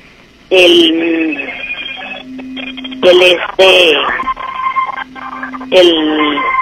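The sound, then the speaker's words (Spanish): A telephone rings with an incoming call: three loud, evenly spaced ringtone bursts of bright harmonic tones, each trailing into a lower sustained tone. “permítame, Me están marcando, sí.”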